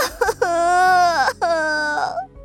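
A woman bursts into loud crying. Her long, high wailing sobs are broken by short catches of breath, and the last one fades away at the end.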